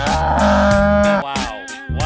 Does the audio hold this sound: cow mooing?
yes

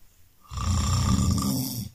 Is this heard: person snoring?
yes

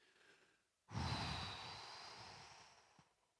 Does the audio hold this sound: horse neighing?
no

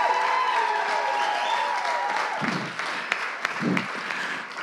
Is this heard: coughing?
no

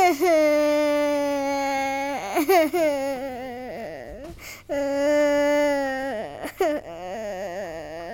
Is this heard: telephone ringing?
no

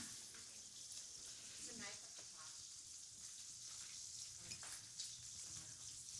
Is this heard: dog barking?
no

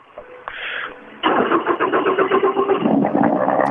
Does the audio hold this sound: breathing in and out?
no

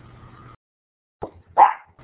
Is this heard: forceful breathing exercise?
no

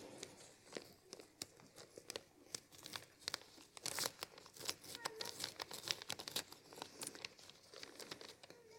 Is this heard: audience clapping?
no

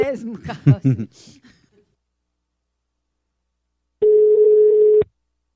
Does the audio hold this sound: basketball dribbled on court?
no

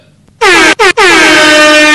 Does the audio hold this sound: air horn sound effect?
yes

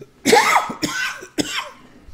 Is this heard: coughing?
yes

